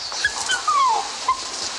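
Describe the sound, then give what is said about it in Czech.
A dog whimpers while being sprayed for fleas, giving a few thin, high whines, one longer and gliding downward, over a faint steady hiss. “To jsou blechy psí, ty na člověka nejdou. No, Išo, drž hezky, necukej.”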